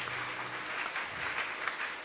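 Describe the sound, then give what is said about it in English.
Congregation clapping during a church service as people come forward to the front, a soft, continuous patter of many hands at a low, even level. “Keep coming. Clap for them, Koinonia.”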